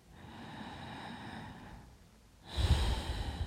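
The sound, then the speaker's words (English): A deep breath drawn by someone lying still in a guided breathing exercise: a long, airy hiss, then a louder, rougher breath sound toward the end, with no talk. “And you simply inhale nice and deep.”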